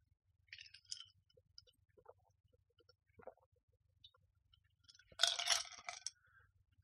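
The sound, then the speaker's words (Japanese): Ice clinks in a glass while Wilkinson ginger ale is drunk: a few faint, scattered clinks and taps, then a louder, rattling cluster of clinks near the end, with quiet gaps between. “ウィルキンソンのジンジャーエールを飲みます。”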